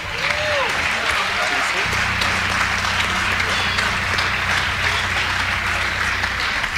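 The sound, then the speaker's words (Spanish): Audience applause for the choir Coro Sacrisol: a thick, continuous wash of clapping that stays level throughout. A low steady hum and some talk run underneath it. “Un aplauso para Coro Sacrisol.”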